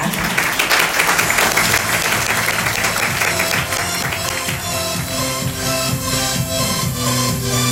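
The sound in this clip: Audience applause welcoming a guest at a talk, dense, continuous clapping held at an even, loud level throughout.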